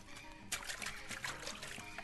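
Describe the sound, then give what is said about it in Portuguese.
Water running while hands are washed, a steady, hissing trickle that starts abruptly and then flows continuously at an even level. “Antes de fazer qualquer coisa em casa, tem que lavar as suas asinhas, ah, lembra? verdade, vovó. Eu vou lá, eu vou lá.”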